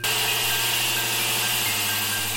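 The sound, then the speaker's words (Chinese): An electric saw cuts into a rough raw stone with a loud, constant, grinding whine and a steady buzzing hum, unbroken and without voices. “随着电锯一点点吃进去”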